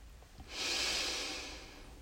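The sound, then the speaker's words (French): One long, soft, airy breath during a yoga class, taken while holding the Utthita Trikonasana triangle pose. It swells smoothly, then slowly fades, faint and alone without talk. “Inspirez. Et expirez.”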